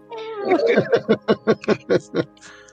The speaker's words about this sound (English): when cats are hungry, where they just keep meowing.